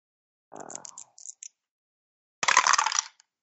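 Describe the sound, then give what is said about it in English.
Dice being rolled during a tabletop game: a few light clicks and rattles come first, then a dense, bright clatter lasting about half a second and a final small click. No one speaks. “I can find my dice here. Here they are.”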